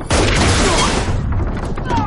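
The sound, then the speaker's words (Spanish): A gun fires through a car body in a science fiction scene: one loud, sudden blast followed by a long, rough, noisy decay. “le apunta desde el otro lado del coche y le dispara a través de la carrocería.”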